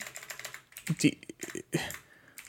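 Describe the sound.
Typing on a computer keyboard: quiet, uneven bursts of clicking keys, with short pauses between runs of keystrokes.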